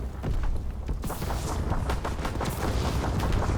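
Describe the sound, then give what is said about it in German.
Gunfire from a shotgun in a war video game with flamethrowers and tanks: many booming blasts in quick succession over continuous battle noise, loud and chaotic throughout. “Komm, ich spiele jetzt mal Shotgun.”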